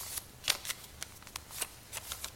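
A creased sheet of paper is unfolded and smoothed out: faint, crisp crackles and crinkles arrive in many short, irregular bursts.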